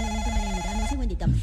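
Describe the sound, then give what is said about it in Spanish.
A telephone ringing with an incoming call: a steady, tonal electronic ring that sounds throughout, with a voice heard over it near the end. “Espérame un segundito que me está entrando una llamada.”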